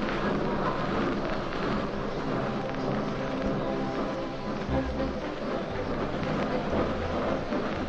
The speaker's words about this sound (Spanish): El tren se pone en marcha.